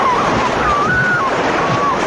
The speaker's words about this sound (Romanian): privește și tu valurile. Vin și se duc.